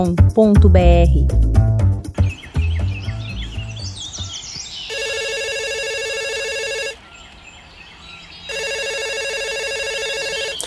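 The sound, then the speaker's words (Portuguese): A telephone rings in two long, loud, steady electronic bursts separated by a short pause, after an opening of busy chirping, tonal sounds. “traga-me o Gardenfone, por favor. Alô?”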